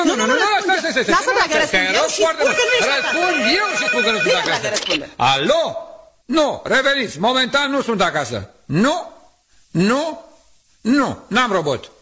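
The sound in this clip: A telephone rings with a melodic ringtone that plays steadily for about five seconds, then gives way to several short bursts of voices talking.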